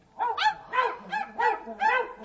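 Dogs barking in a quick run of sharp, fairly high-pitched barks, several in succession with short gaps between them, heard alone without talk.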